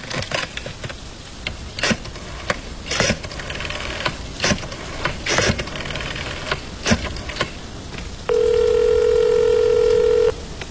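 A telephone dialing a call: a run of short, sharp clicks and beeps, then a steady, loud electronic tone that holds for about two seconds near the end.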